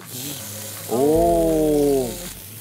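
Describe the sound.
Meat sizzles in a pan beside onions with a steady bright hiss throughout, and a drawn-out voiced exclamation rises over it in the middle.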